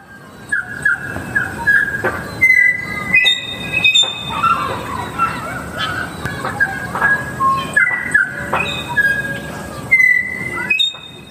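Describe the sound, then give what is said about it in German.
A tui, a New Zealand bird that mimics sounds, calls with a loud string of clear, pure whistles at shifting pitches, mixed with clicks, creaks and rasping notes, and no voices. “Kleiner Fun-Fact zum Tui, dass der in unterschiedlichen Regionen unterschiedliche Geräusche macht, weil er auch sehr oft die Geräusche aus seiner Umgebung nachahmt. Also der klingt überall anders. Ich spiele euch den Tui mal hier ein.”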